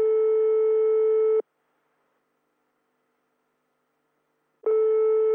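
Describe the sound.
A telephone ringing tone heard while placing a call: a steady, buzzy tone for about a second and a half, a long silence, then the same tone starting again.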